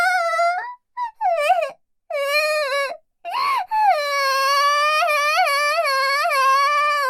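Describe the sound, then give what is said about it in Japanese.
Fake, exaggerated crying from a theatrical voice: a high, wavering wail broken into several short sobbing bursts with gaps between them, then a long, sustained quivering cry with a pulsing vibrato. “てめえ、何あざとい嘘泣きしてやがる。”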